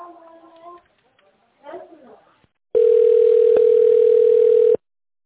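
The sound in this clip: Telephone ringing tone heard while a call is being transferred: a single steady, mid-pitched tone lasting about two seconds. It follows a brief stretch of faint, muffled voice sounds.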